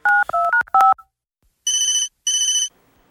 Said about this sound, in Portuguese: Ah. Vou ligar de novo.